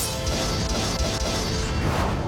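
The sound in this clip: A Double Slash sword attack from a video game bursts out as a loud, dense crash of slicing swooshes and impacts that stays at full strength for about two seconds.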